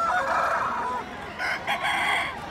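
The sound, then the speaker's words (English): A rooster crows from behind trees near an abandoned gravel pit packed with parked cars. The calls are moderately loud and come in a few strained bursts. “you could hear, invisible from behind the trees, the sound of cheers and rooster calls.”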